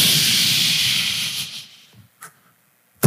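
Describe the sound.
A voice imitates a compressed futon bursting out of its cut-open box with a long, loud breathy hiss that fades away, followed by a couple of short faint clicks.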